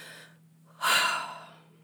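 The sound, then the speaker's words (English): A single deep breath taken in: a loud, airy rush that swells suddenly and tapers over about half a second, preceded by a fainter breathy sound, with no talk. “Okay. I'm going to take a breath.”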